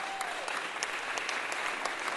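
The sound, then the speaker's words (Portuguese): Audience applause for a composer, a dense, steady wash of many hands clapping that holds evenly for the whole stretch without a break. “Uma salva de palmas, compositor também que saiu.”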